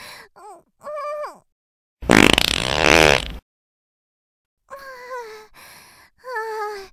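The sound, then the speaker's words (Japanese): A long, loud, rough fart bursts out for over a second. Breathy voiced groans and moans with a wavering pitch come before it and after it. “熱い。しかもすかしっぺだし、絶対今の強烈だよ。あ、大きいの出そうかも。”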